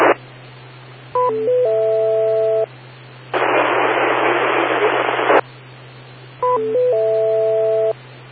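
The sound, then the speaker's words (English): Bursts of dense static from an amateur radio transmission that is almost entirely noise, loud and steady for about two seconds, over a constant low hum, with short electronic tone sequences before and after. “Sorry, someone just transmitted, and it was about 99% noise.”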